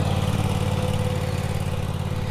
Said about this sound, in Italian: Un'altra falciatrice mi passa accanto.